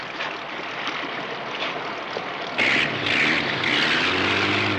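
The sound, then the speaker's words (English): A motor launch's engine drones as the boat moves out slowly. The low rumble is steady with a broad wash of noise and grows noticeably louder partway through. “go back up to the wheel and move the launch out slowly”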